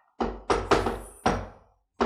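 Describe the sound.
Knocking in the shave-and-a-haircut rhythm: five sharp, resonant knocks, three close together, a short gap, a fourth, then a longer pause before the fifth, with no voices.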